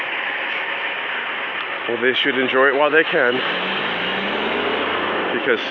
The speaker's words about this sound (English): That's the sound of fracking. big trucks carrying water back and forth.